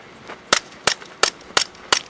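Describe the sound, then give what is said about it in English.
Paintball gun firing during a police cadet training scenario, five sharp, evenly spaced cracking shots with faint softer pops between them. “Thankfully, that was just a paintball gun.”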